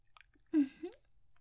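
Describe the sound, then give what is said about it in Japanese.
Wet, squelching mouth sounds made with saliva: two brief, soft smacks close together, the first stronger, over near silence. “お姉さんの唾液が混じったエッチな音、クチュクチュってずっと鳴ってるわよ。”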